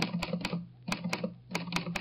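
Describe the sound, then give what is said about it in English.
Keystrokes on an Underwood typewriter: sharp, quiet mechanical clacks in irregular quick bursts, with short gaps between clusters of strikes. “I'll type it up for you right now on my Underwood typewriter.”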